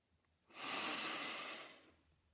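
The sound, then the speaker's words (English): One deep breath drawn in, a single smooth rush of air lasting over a second that swells quickly, holds steady and then fades, heard alone against quiet. “Now, take a deep breath.”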